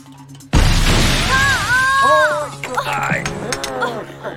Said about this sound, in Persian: جوکر حالا ماشینامونو منفجر کرد.